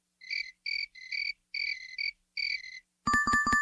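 A cricket chirps in five short, high, buzzy bursts separated by brief gaps. A different loud, pulsing tonal sound then cuts in at the end.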